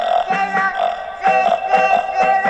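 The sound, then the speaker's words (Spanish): A man burping, used in place of a pig's grunt on a children's song cassette: a few drawn-out, throaty belches with a strong tonal buzz, each swelling and fading in a loose rhythm. “Eso es un tío pegándose un pirorto. Eso no es un cerdo, eso es un tío eructando.”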